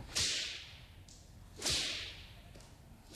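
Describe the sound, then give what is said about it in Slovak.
Whip swishes from an old woman's whip, two sharp, bright lashes, each trailing off in a fading hiss, with a third just starting at the very end. “Kom často bič zasviští.”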